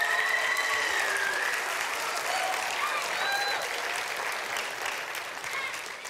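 A church audience applauds children who are about to be baptized, giving sustained, dense clapping that holds steady throughout and eases only slightly toward the end.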